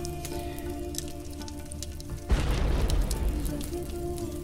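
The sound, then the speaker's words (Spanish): Crackling fire with a rushing, water-like roar that swells in suddenly partway through over a steady low hum, scattered sharp crackles popping throughout. “Suena como un río de agua, pero con el crujir del fuego. Chisporrotea.”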